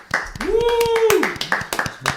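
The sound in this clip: Many sharp hand claps rattle through a studio chat, while a steady whistle-like tone slides up, holds and drops away in the middle of the clapping.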